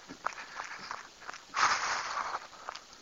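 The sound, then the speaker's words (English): Footsteps of a person starting a run: soft, quick footfalls in an uneven rhythm, faint, with a slightly louder scuffing stretch midway. “all right, let's get this run started.”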